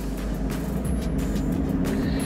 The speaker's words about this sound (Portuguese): Olha, ele sai totalmente como se estivesse deslizando para um lado e agora a mesma coisa para o outro lado.